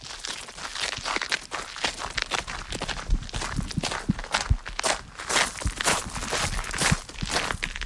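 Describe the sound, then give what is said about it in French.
Footsteps entering a small tower and its tiny staircase in Saint-Point castle: many scuffing, crunching steps in a fairly even rhythm, moderately loud and continuing throughout. “Donc là, on pénètre dans une petite tour, un tout petit escalier, en fait.”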